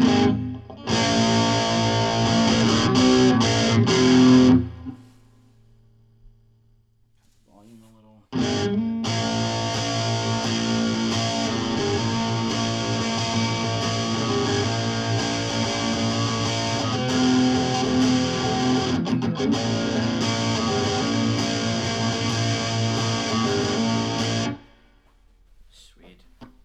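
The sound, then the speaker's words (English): Distorted electric guitar, run through effects with the mids boosted and the bass and highs cut, strums the same chord over and over. A short burst gives way to a pause, then a long, loud, sustained stretch of repeated chords. “I'm just playing the same chord over and over again.”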